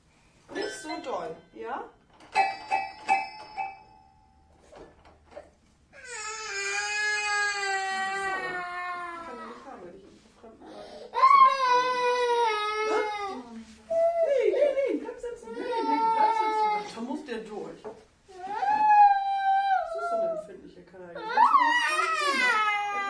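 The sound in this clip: A young child cries and whimpers in high, wavering, tearful wails that come in several long bouts separated by short quiet gaps.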